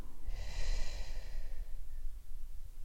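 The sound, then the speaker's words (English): Slow, relaxed breathing during a guided yoga exercise for stress: a soft, airy breath swells and then fades in one long sweep, quiet and alone over a low background rumble. “Come back to your breath. Inhale softly. Exhale long.”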